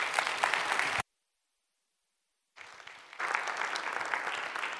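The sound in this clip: A church audience at Bethany Assembly of God applauds to welcome a guest speaker: dense, steady clapping that breaks off for a brief silence, then resumes softly and swells back to full strength.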